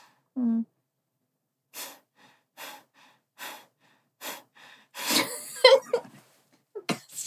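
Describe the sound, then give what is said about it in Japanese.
Nasal breathing during a breathing exercise: a short voiced sound, then four evenly spaced breathy bursts through the nose, followed by a longer, louder run of snorting, gasping breaths and a final few quick exhales. “ちょっと呼吸を、どんな感じか、ちょっと練習してみようと思います。鼻で呼吸ですよね。はい。で、吐く方を意識なので、”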